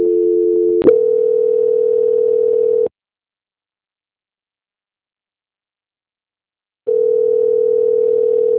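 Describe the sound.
Telephone tone during a call transfer: a brief two-note hum, then a click and a steady single-pitch tone for about two seconds, several seconds of silence, and the same steady tone returning.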